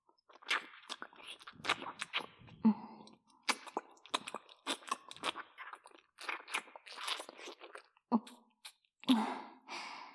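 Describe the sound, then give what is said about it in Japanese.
Tongue kissing with saliva: many quiet, irregular wet smacks, slurps and sucking bursts in uneven clusters, separated by brief pauses. “今度は一緒に舌絡めてみてよ。唾液も一緒に飲んで。”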